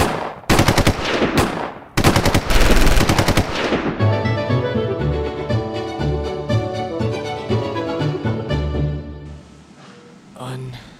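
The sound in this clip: Bursts of rapid automatic gunfire in a dramatized shootout: dense, loud strings of shots crackle through the first few seconds, broken by a short gap, then give way to sustained music.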